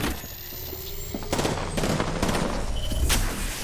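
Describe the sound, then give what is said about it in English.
Gunfire in a video game: bursts of rapid shots crackle over a steady background, with a few louder volleys of repeated bangs in the second half. “I'm fucking taking fire. Reloading. Reloading. Recharging shields.”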